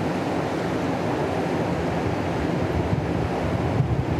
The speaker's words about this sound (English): And the wind is also participating in the creation of this beautiful texture. And we are here with the river flowing